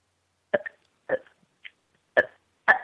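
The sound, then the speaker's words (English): A woman burping in a few short, abrupt voiced bursts spaced roughly half a second apart. Each burst is brief and fairly loud against silence, with no talk. “she was burping”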